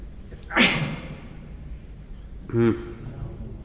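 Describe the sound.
A single sharp sneeze bursts out early and stands clearly above a quiet background. After a pause, a short spoken utterance follows.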